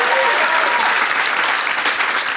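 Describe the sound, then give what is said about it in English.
Loud, dense audience applause at a comedy show in Austin, with sustained clapping from a large crowd that holds steady throughout. “applaud if you did not attend Fantastic Fest, but you're here for this.”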